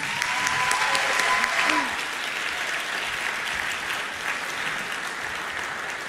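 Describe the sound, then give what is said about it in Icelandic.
An audience applauds a 19-year-old singer before her set, a dense, continuous patter of many clapping hands that is loudest at first and then settles to a steady, slightly lower level. “gefum henni gott klapp”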